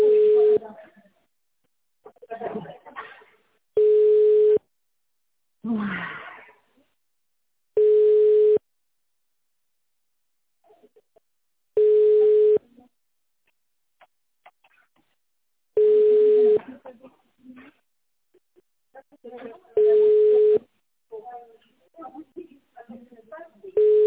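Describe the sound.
Telephone line tones play while a call is being connected to a secretary. A loud, steady ringback beep repeats about every four seconds, and voices talk in the gaps between the tones.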